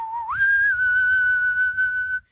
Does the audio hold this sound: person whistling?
yes